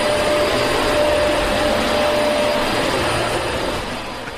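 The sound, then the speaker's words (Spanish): A vacuum cleaner runs with a loud, steady roaring whine and a thin high tone on top. It holds at an even level and eases slightly near the end. “Desconectó todos los respiradores y todas las máquinas y se puso a aspirar a las 11 de la mañana.”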